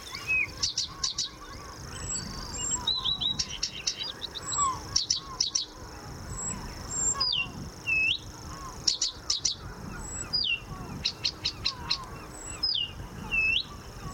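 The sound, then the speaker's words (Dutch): Varied bird song packed with imitations, including marsh warbler phrases. Rapid chirps, whistles, short trills and sweeping notes come in bursts, with no voices. “Een heel gevarieerd geluid, hè? Met allerei imitaties ook, net als die bosrietzanger erdoorheen.”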